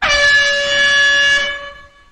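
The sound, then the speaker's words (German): A single loud air horn blast, blown to start a countdown, holds a steady, bright, buzzing tone for about a second and a half before fading away. “dann mache ich jetzt die Hupe und starte den Countdown”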